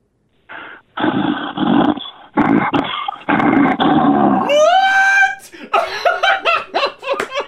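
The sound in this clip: A person imitates an animal growl with several rough, raspy bursts in a rhythmic series, then moves into higher, wavering voiced sounds and a quick run of short choppy bursts.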